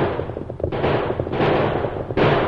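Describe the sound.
Gunfire during a western-style chase: a few sudden, heavy booming blasts rise out of a dense, continuous rumbling noise, loud and harsh throughout.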